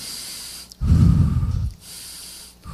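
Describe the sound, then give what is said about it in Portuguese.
Chest breathing shown in a breathing exercise: one loud, rough, breathy rush of air lasting about a second, then quieter, steady breath noise. “Essa mão no peito é para que vocês percebam que não vamos respirar com o peito. Respirar com o peito seria assim.”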